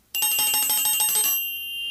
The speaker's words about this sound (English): In the tape, you will hear a bell like this,